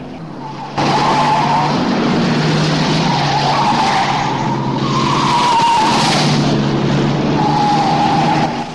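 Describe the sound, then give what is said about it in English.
A car screeches its tyres at top speed down a single-track road. A loud, sustained squeal and engine roar start abruptly and hold steady to the end, with no voices. “overtakes another vehicle and drives at top speed along the road. He screeches down a single-track road and then down the winding drive of Toby's house.”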